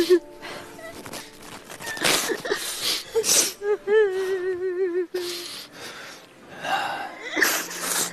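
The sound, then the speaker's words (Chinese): A mother cries for a son missing ten years, with gasping sobs and a quivering, wavering wail in the middle. People talk around her. “您不哭了啊，不哭了，知道你想儿子十年了”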